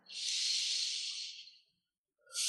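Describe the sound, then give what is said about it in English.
A slow, soft deep breath, heard as a steady airy hiss that lasts over a second and fades out. After a short silence another breath begins. “And take a deep breath.”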